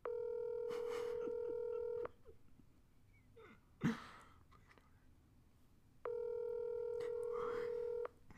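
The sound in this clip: Electronic phone ringing on an unanswered call: two long, steady ring tones of about two seconds each, separated by a quiet gap in which one brief, sharp, breathy burst stands out.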